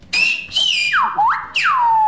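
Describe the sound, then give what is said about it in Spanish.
Whistled phrase that imitates the melody of a short spoken Spanish sentence of affection. Three clear, high tones with sliding glides: the middle one dips sharply and climbs back, and the last falls away steadily. Loud and alone. “Le voy a silbar una frase que da bastante juego, que es te quiero mucho.”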